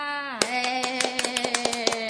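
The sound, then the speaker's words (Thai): A show host claps her hands in a quick run of many sharp, bright claps that start after a brief pause and ring over a steady, sustained tone. “คือตัวแรกเราจะไม่ปบมือเนาะแต่ว่าไกด์ปบนำก่อน เป็นความเคยชินส่วนตัว”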